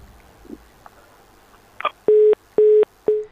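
Telephone line tones as a caller's call cuts off: a few faint clicks, then three steady, evenly spaced beeps at one fixed pitch, alone.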